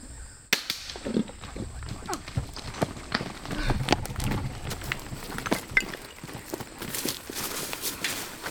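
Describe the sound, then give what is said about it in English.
A crossbow shot during a hunt gives a sudden sharp snap near the start, followed by many small clicks, knocks and rustling clatter that go on to the end. “That is the sound of my daughter taking her second shot at the second ever Death by Bungie meet and greet.”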